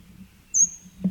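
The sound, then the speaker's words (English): A bird calling overhead: one brief, high, thin whistled note that trails off quickly, heard alone over a low background rumble with a soft thump near the end. “bird is overhead.”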